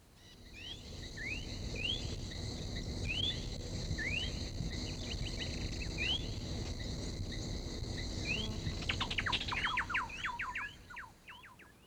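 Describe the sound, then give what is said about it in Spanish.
Troupials call from their hanging nest in the Colombian lowlands: a run of short, quiet chirping notes at irregular intervals over a steady hiss, then a quicker burst of clipped notes near the end. “Desde su nido colgante continúan los turpiales.”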